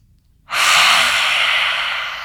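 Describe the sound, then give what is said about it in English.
A deep breath during a guided breathing exercise: after brief silence, one long, airy rush of breath starts abruptly and holds steady for nearly two seconds, alone and without talk. “huge breath in. Release the tongue with the exhale. Again.”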